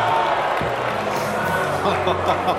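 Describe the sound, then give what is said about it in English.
Media and VIP crowd at the NBA draft lottery reacting to a pick: a loud, steady wash of many voices that fills the whole moment without a clear break. “Sounded like a car accident. Sounded like you're watching an event on TV and it was an accident or someone blew out their knee. Did you hear the crowd? That's pretty much of a media crowd and VIPs.”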